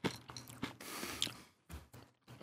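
Faint crunching as someone chews a crisp, low-fat snack, with irregular short bursts of bites and brief pauses between them.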